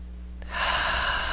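A deep breath drawn in suddenly, becoming a steady, loud airy rush that lasts about a second over a low, constant hum.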